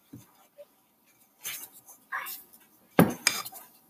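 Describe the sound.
A spoon scrapes and knocks against a bowl as chocolate chip cookie dough is stirred by hand, in a few short, uneven bursts separated by quiet gaps.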